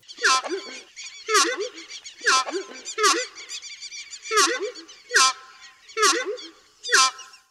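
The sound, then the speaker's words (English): A screamer bird giving its honking call: eight loud, harsh, nasal honks repeated in a steady rhythm about a second apart, each with a brief lower note. “The screamer gets its name from its habit of screaming if it feels threatened or if it just encounters something new or that it doesn't like. The screaming is actually more of a honking call that sounds like this.”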